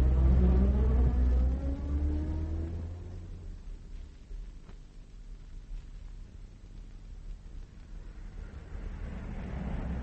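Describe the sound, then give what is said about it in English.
A car engine drives through city streets while following a taxi. It opens with a loud revving whine that climbs in pitch, then settles into a quieter, steady low rumble with no talk. “I'm going to follow the taxi. Sit back, Steve, in case she turns round.”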